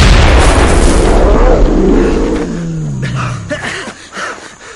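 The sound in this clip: A hand grenade explodes during a dramatized fight against dinosaurs, a loud, broad blast that rolls into a deep rumble and fades slowly over several seconds.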